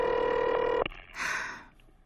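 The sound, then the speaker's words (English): A telephone ringing with a steady electronic-sounding tone for under a second, abruptly cut off by a click, then a brief muffled rustling noise that fades out. “Oh, answer the phone, for heaven's sake.”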